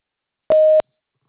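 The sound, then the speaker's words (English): A single short voicemail beep: one clean, steady mid-pitched tone lasting about a third of a second, set against silence. “message after the tone, including any non-urgent maintenance requests, and we'll get back to you as soon as we return.”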